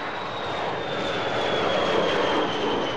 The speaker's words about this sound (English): An American B-52 bomber taking off from a British airfield. That sound